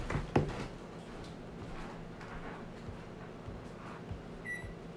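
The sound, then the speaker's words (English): An oven is set to preheat: a faint click near the start, a steady low hum throughout, and a short, high electronic beep near the end. The sound is quiet overall. “Okay, well, I'm gonna go preheat the oven.”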